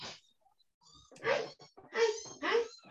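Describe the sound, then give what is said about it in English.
Kittens meow in a few short, squeaky, high-pitched calls, the louder ones coming in the second half with brief gaps between them, all fairly faint. “Do we want some kitten meows to lead us out?”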